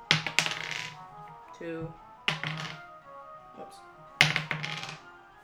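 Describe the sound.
Dice are rolled onto a table during a tabletop role-playing game, making three sharp clattering thunks spaced about two seconds apart. People talk around the rolls.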